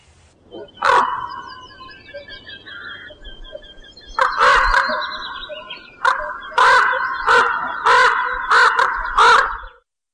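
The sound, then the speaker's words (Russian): Crows caw in loud, harsh calls, starting with a lone caw and a pause, then a cluster of calls and a quicker, fairly regular run of caws that stops abruptly. “Вороны.”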